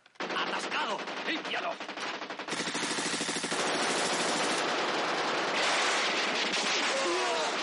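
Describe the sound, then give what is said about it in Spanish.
Heavy gunfire from the 1970 war film Kelly's Heroes, with German soldiers firing at a man sheltering behind a truck. Loud, rapid automatic bursts build into a sustained, dense barrage of shots. “Kelly se refugia tras un camión y varios soldados alemanes le disparan desde el otro lado, pero no logran acertar.”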